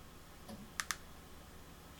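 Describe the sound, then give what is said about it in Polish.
A key is pressed on a BlindShell Classic phone keypad, giving two quick, sharp clicks in close succession, faint over a low steady background hiss. “Przyciskam klawisz OK.”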